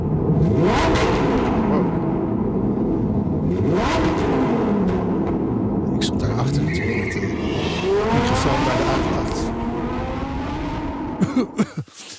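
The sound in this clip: Lamborghini Huracan Technica sports car engine revving in a tunnel, loud and continuous, its pitch rising and falling several times, with a few sharp pops near the end.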